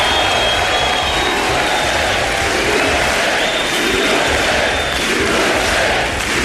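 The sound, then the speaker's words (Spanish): Crowd chanting and cheering with applause from the Republican audience and guests in the US Congress during a State of the Union address: a dense, loud, unbroken roar that holds steady throughout. “USA, USA, aplausos y jaleo de los suyos, la platea republicana y parte de sus invitados”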